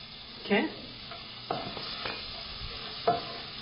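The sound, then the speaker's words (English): Cumin seeds and chopped garlic sizzle in butter in a pan for tomato soup: a faint, steady sizzle runs underneath while a few short scraping stirs rise above it. “just heat some butter in a pan. Add little bit cumin seeds, because I love to add a little cumin. Just add little bit cumin seeds. Add little chopped garlic.”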